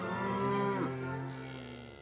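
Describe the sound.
A bull on a cattle farm gives one long, deep, drawn-out moo, loud and rich in tone, its pitch dipping partway through before fading slightly at the end, with no voices.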